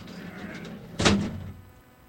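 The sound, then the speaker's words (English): A big heavy door is shut with a single deep, loud thud about halfway through, which rings briefly and fades over a low steady background rumble. “All right, let's get the big ass door. Big ass door. Big ass door. Here. Yeah, there it is.”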